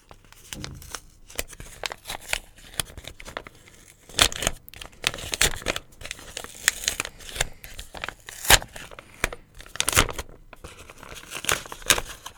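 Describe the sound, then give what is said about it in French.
Paper tearing and crinkling as a sealed letter is opened: irregular rips, rustles and crackles throughout, some louder tears standing out, with no talk. “Par contre, celle-là, à toi qui liras cette lettre, ça, évidemment, on est obligé de l'ouvrir. Enfin, on se sent obligé de l'ouvrir.”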